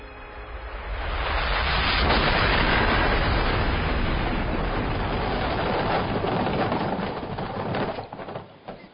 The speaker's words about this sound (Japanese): 博士、よろしく。 第一グループ南アルプス爆破。